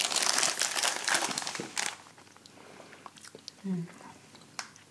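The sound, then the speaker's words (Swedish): Crunching and chewing of gingerbread cookies, dense crackly bites and crinkles for about two seconds, then quieter mouth sounds with a brief low voice fragment. “Här är pepparkakor. De är jättegoda. Får du äta”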